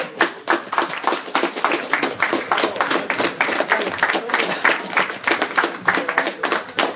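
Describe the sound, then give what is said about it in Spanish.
An audience claps for a costumed Spider-Man guest at a talk event. The clapping is loud, steady and rhythmic, with many closely spaced claps throughout and voices mixed in. “le pido un fuertísimo aplauso para el sorprendente Hombre Araña”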